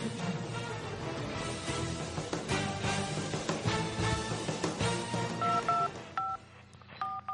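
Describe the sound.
A telephone number is dialed for a radio call-in segment, several short, bright keypad tones near the end following a dense stretch of background sound.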